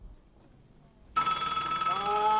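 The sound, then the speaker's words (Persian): A telephone ringing bursts in abruptly after a second of faint murmur and continues loud and bright, with a shrill, buzzing tone, to the end. “کیه بابا هی پرت پرت زنگ میزنه نمیذاره بخوابید؟”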